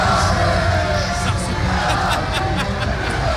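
Football fans in a fan zone in Nyon during a Switzerland–Hungary match, late in the game: a continuous, loud crowd din of overlapping chatter and shouts with no break.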